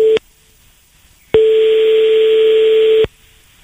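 Ringing tone of an outgoing telephone call: a steady, even, buzzing pitched tone. A short tail of one ring at the start is followed by silence, then one long ring of about a second and a half, then silence.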